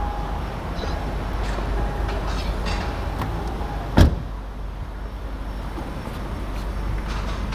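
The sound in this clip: A door shuts with a single, short thud midway through a constant low rumble.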